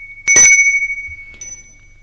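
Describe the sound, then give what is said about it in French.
A bell rings at a gate: a bright, metallic ring that decays smoothly, then a shorter, fainter second ring a moment later. “Dans l'après-midi, on sonne au portail.”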